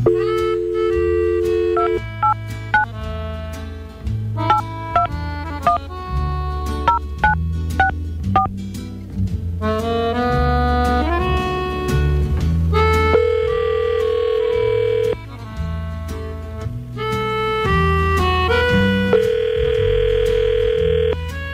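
Telephone dialing and dial tones as a call is placed: a long run of electronic tones that shift in pitch, with short keypad beeps, loud and steady over about twenty seconds, with no talk.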